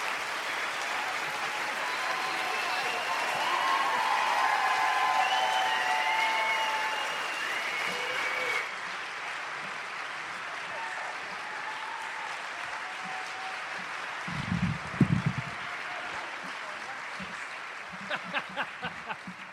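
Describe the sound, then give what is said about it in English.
An audience at Town Hall Seattle applauds to welcome two speakers with dense, steady clapping that swells early, drops off sharply partway through and tapers down, with a few low thumps and sharp clicks toward the end. “Please join me in giving a warm Town Hall welcome to Lauren Weedman and Dan Savage.”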